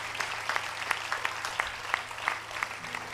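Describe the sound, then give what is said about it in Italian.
Light, scattered clapping from a small audience at a gathering remembering a priest. Many separate claps stand out at an uneven rhythm over a quiet background with a faint low hum. “Quindi un applauso a Padre Daniele, dai, che lo ricordiamo e siamo contenti di esserci.”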